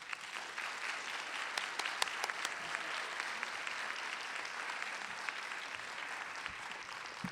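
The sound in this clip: Audience applause welcoming a speaker and author to the front of the room, a dense, steady wash of many hands clapping that holds at an even level for about seven seconds, with no voices over it.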